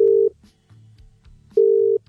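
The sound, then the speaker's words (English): A telephone ringing tone sounds as a call is placed, two loud, steady single-pitch beeps separated by a gap of more than a second. “let's call Ella now”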